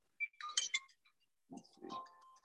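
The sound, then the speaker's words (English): A mobile phone going off, two short bursts of bright electronic tones separated by a brief silence, fairly quiet, with no voices. “my wife's phone is buzzing right now”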